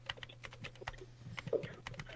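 Typing on a computer keyboard: many quick, light key clicks in an uneven rhythm, with no talk over them.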